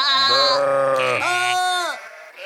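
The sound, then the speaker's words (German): A person imitates a sheep bleating with two drawn-out, high, wavering bleats in a row, the second shorter than the first. “Hört mal, ich kann ein Schaf nachmachen.”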